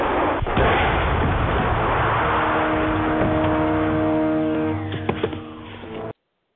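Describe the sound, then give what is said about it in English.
Artillery bombardment explosions form a dense, continuous heavy roar lasting about six seconds. A droning tonal hum runs through the second half before the rumble thins out and cuts off abruptly. “This bombardment could be a tactical diversion on the part of the Doctor.”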